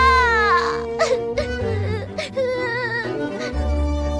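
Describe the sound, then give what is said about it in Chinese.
A child crying in a story, voiced by a performer who imitates the sound: a long, wavering, high-pitched sobbing wail with quivering pitch, broken by short catches of breath. “哎，好孩子，别哭了啊，我试试。”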